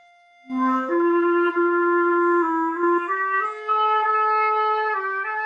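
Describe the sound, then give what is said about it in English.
Flute holding a very flat F with its head joint pulled far out, one long sustained note lasting about five seconds, steady and fairly loud, its pitch nudging upward slightly a few times along the way. “So if I listen to this F again, and then I'm going to pull my head joint right out, like huge amount out, so it's very, very flat.”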